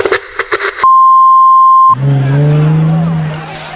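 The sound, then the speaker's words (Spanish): A police patrol car turns and brakes, its tires letting out a loud, rising screech over engine rumble for about two seconds. Before it come a few short pulses and a steady electronic beep tone. “Dobla desde la 9 de julio un patrullero y frena.”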